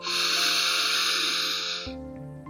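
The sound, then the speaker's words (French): A deep breath drawn in during a guided breathing exercise, a loud, airy hiss held steadily for about two seconds before it stops, with soft sustained background music underneath. “Je t'invite maintenant à prendre une grande inspiration”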